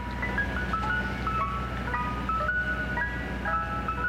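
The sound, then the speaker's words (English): A Mr. Softee ice cream truck jingle on New York City streets, a tinkly, music-box-like melody looping steadily over a constant low hum. “New York City Mayor Mike Bloomberg has proposed banning that theme from city streets, where it spills forth all summer long from Mr. Softee ice cream trucks.”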